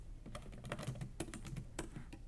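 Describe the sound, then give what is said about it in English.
Computer keyboard typing as notes are written down during an end-of-year teacher reflection: quick, quiet keystrokes in short irregular bursts, with no voices. “I'm writing this down because we'll come back to this at the beginning of the school year.”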